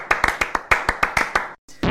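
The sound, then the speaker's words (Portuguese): Sharp, loud hand claps ring out in a quick, slightly uneven run. They break off briefly before a little more noise follows. “Eu preciso bater aqui uma salva de palmas porque, minha filha, você é profissional, viu? Bater uma salva de palmas aqui pro profissional.”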